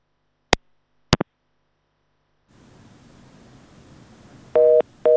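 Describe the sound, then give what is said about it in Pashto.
A dropped telephone call: a few sharp clicks, then a soft hiss on the open line, then loud busy-signal beeps in two steady-pitched bursts. “دیو تخنیکی ستونزې له امله له ښاغلي صابر سره زموږ تلیفوني اړیکه بنده شوه”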